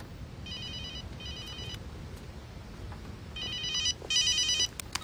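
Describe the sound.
A telephone rings with an incoming call in two double-ring bursts, each a trilling electronic ring. The second pair comes louder than the first, over a steady, fairly quiet background noise.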